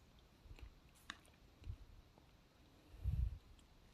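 A few soft, low swallowing gulps as someone drinks a little water during a silent pause, with a tiny click between them and the last gulp the loudest; no talking.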